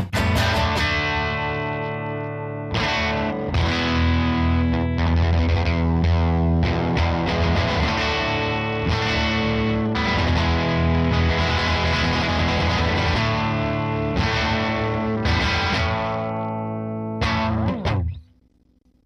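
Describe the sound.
Electric guitar through a light-gain overdrive pedal plays many strummed chords that ring with bright, gritty sustain. It stays loud and steady until the final chord is cut off near the end.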